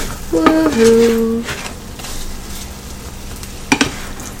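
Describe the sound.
Eggs frying in a pan until the yolks are fully set: a soft, steady sizzle runs throughout, and a couple of sharp utensil or pan clinks land close together near the end.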